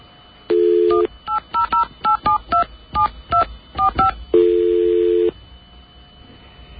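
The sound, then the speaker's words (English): Touch-tone keypad dialing a telephone number: many short, evenly pitched beeps in a quick, uneven rhythm, set between two longer steady tones, with no talk. “I've got another number I'm going to call.”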